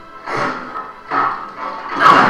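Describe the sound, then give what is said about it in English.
A heavy door opens with three broad, grinding swells of noise, each rising and fading, the last one the loudest. “Yep, really heavy door.”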